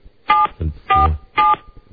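Three telephone keypad tones sound as a number is dialed, evenly spaced short beeps with faint low sounds between them.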